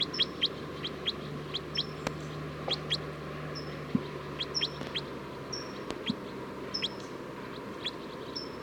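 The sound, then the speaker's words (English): Recorded bird calls: many short, high chirps repeat at irregular intervals, faint and thin, over a low steady hum. “Oh, it's recording bird 307 again.”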